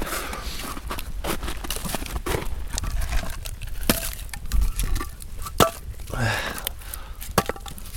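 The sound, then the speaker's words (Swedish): Pieces of firewood are laid onto a burning fire with irregular wooden knocks, clunks and scrapes. The thuds are scattered and uneven over a constant crackling, rustling background. “Ja, men jag, jag, jag, jag kan hålla på. Jag håller den här så kliver jag upp och så eh, ska jag bara så lägga på lite ved.”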